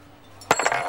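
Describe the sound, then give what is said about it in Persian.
A lucky coin is flipped and handled: a bright metallic clink is followed by a few quick, lighter chinks over a quiet background. “میشه چند دقیقه این سکه شانس رو ول کنی؟”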